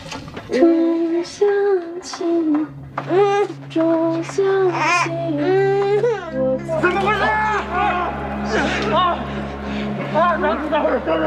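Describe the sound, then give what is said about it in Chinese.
A baby cries in loud, wavering high-pitched wails that rise and fall almost without pause, over a steady low drone, with adult voices talking alongside. “妈妈抱，不哭了啊！妈妈抱。”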